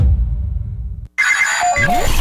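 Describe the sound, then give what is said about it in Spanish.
A mobile phone ringtone rings out loudly after a brief silence, with bright repeating electronic tones and gliding pitch sweeps, following a low, bass-heavy musical passage. “En mi celular, Tropicana.”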